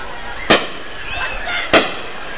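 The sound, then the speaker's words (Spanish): Two sharp bangs of stick rocket fireworks exploding at the fireball festival in Nejapa, spaced a little over a second apart above a low, steady background rumble. “No son, esos son cohetes de vara, señor. Nada de luces de bengala.”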